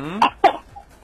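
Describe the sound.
Two short, sharp coughs in quick succession from a person with a cough, fairly loud, followed by a faint breathy trailing sound.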